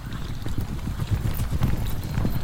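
Horses' hooves clip-clop as a group of riders comes to a halt at a clearing, a dense and continuous patter of hoofbeats over a low rumble, with no voices.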